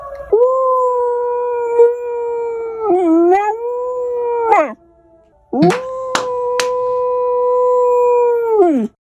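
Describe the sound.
A corgi howls in imitation of a tornado siren, giving two long, loud, sustained howls that hold a fairly steady pitch with slight wavering, separated by a brief pause.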